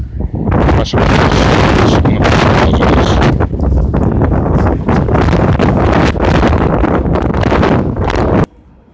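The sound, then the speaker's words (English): Wind blows into the microphone outdoors, producing a loud, continuous buffeting roar that lasts several seconds and then stops abruptly. “Shit, now it's all windy.”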